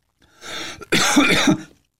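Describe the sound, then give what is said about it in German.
A person coughing who has trouble swallowing: a softer rasping burst, then after a brief gap a longer, louder, harsh cough. “Ich muss wieder husten.”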